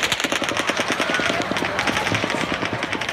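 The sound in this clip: Automatic firearm gunfire erupts during a shooting at the Route 91 country music concert. It is a loud, rapid, unbroken stream of many shots that runs throughout.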